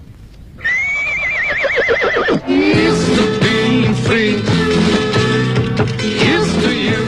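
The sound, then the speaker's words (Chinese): A horse gives a long, loud, wavering whinny as its rider sets off, then hooves clip-clop in a steady rhythm as it moves away. “提亚哥骑上他的马独自走了，这位浪迹天涯的朋友又要到哪儿去呢？”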